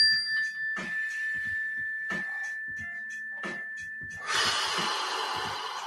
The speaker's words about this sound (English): Let's take a slow, deep breath.